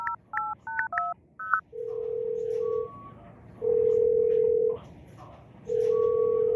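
Touch-tone beeps of a phone number being dialed in an office: a quick run of a few key tones, then long steady ringing tones that repeat three times with pauses between.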